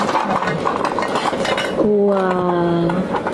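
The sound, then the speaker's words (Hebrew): A pot with a lid being handled: metallic clattering and scraping, then a clear ringing clink that hangs for about a second before fading. “יש כאן סיר עם מכסה.”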